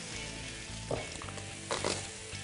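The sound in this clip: Brussels sprouts and dill fry in a pan, cooked ahead of sausages. A steady, dense sizzle runs throughout, with a couple of slightly louder crackling bursts.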